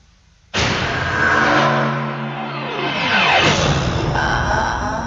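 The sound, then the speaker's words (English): Film trailer sound effects: a sudden loud roaring engine burst that swells and holds, with a sweeping drop in pitch partway through, continuing at full strength to the end. “So let's view a trailer here, or listen to a trailer, just to show what we're gushing about.”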